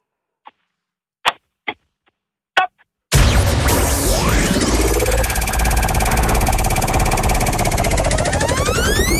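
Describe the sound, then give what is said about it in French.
A game show wheel spinning: a few sparse, sharp clicks, then a sudden loud, dense whirring roar with sweeping tones that continues steadily to the end. “Avec votre top, on va pouvoir tourner la roue et découvrir quelle épreuve vous attend”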